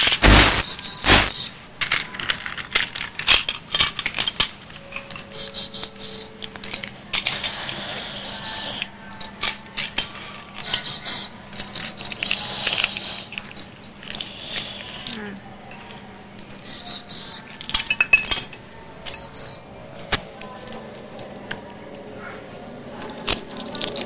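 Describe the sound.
Running water splashes while dishes and cutlery are washed after a meal, with irregular clinks and scraping over a steady hiss and occasional soft voices.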